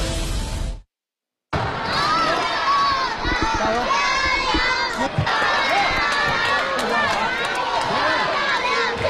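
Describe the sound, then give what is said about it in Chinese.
Young players shout at a youth table tennis competition of the Beijing Municipal Games in Haidian Gymnasium. Dense, high-pitched cheering and crowd babble run throughout, broken by a brief silence near the start. “耳畔充满了稚嫩的呐喊声，满场都是挥汗如雨的小球员的身影。昨天第15届世运会乒乓球比赛在海淀体育馆拉开帷幕”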